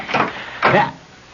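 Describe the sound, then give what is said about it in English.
A door being opened in a tense mystery scene: two soft creaking swishes in quick succession, the second longer and louder, then quiet. “I don't dare open the door. Yeah, well, I guess I'll have to then.”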